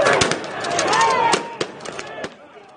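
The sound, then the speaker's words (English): Pepper ball guns firing along with flashbangs thrown at people, many sharp irregular pops and cracks over a dense, noisy background. “They're shooting pepper balls at us. They've thrown out tear gas, flashbangs.”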